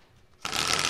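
A prize spin wheel whirs into a dense, rapid clatter that begins abruptly partway through. The brief, bright, rattling burst stays loud until the end, with nothing else heard.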